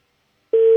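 A steady telephone line tone sounds while a call is being placed. It cuts in abruptly halfway through and holds at one even mid pitch until the end.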